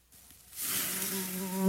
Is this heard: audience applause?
no